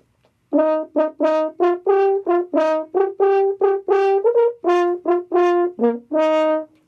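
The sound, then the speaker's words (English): Horn pitched in E flat playing a lively phrase of many crisp, separately tongued notes, warm and full-toned with short pauses between, sounding alone without voices. “Now you'd have an E flat horn, it would sound like this.”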